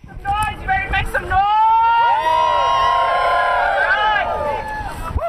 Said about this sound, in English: A noisy group gathered outside in biting wind and falling temperatures to call attention to what was going on inside UAA's library. In traditional protest fashion, they waved homemade signs and chanted slogans.